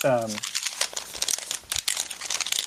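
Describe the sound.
A bunch of papers being folded produces dense, irregular crinkling and rustling, with many quick crackles after a brief voiced tone at the start.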